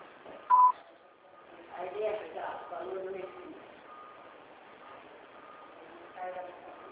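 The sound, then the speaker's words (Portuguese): A voicemail recording beep sounds once, short and clear, over a narrow phone line, followed by a voice talking. “para a caixa de mensagem para a sujeita cobrança após o sinal. Após o sinal, grave sua mensagem.”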